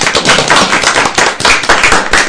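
Loud audience applause after a singer's performance, with sharp, crisp claps in a dense, uneven rhythm that dips briefly in the middle before picking back up.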